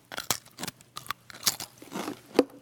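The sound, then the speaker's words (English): Crunching and chewing of Pringles crisps: a run of sharp, dry crunches in an uneven rhythm, each brief and crisp, with softer chewing between bites and no talk. “It's hard to eat half of a Pringle, by the way. Ever notice that?”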